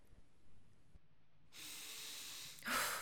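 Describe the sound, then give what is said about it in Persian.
A deep breath is drawn: a soft, airy rush of air swells steadily, then a stronger breathy gust comes at the end, faint overall and with no voice. “نفس عمیق.”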